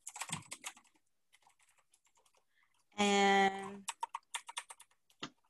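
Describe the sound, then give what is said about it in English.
Typing on a computer keyboard while entering text into a Word document: bursts of quick, crisp keystrokes, a pause, then more rapid clicking with a brief buzzing tone in the middle. “So I'm gonna type out some text.”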